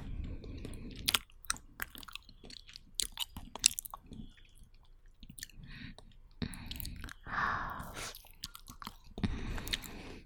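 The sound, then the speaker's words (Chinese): Someone is chewing barbecue with soft, irregular crunching and squishing bites, quiet and repeated many times with short pauses between. “有一阵子没有吃烧烤了”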